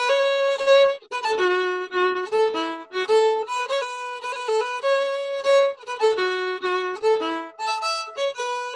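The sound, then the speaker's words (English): Solo violin plays a Scotch snap rhythm, a clipped accented note snapping into a longer held one, over and over across several short phrases. The bowed tones are bright and clear, with brief gaps between groups and no talking. “A Scotch snap on the violin sounds like this.”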